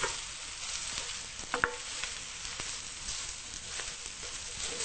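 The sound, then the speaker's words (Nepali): Frying and stirring in a pan as food is cooked until it turns red: a steady, soft sizzle with scraping stir strokes and a couple of sharper clinks partway through. “यसलाई रातो हुने गरेर भुट्नुपर्छ”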